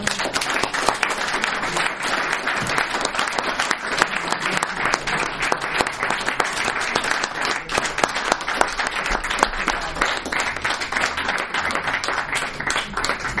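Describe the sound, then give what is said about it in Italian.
An audience applauds after a lecture, dense steady clapping from many hands that holds at an even level for the whole stretch. “Il calore dell'applauso mi sembra che dica molto”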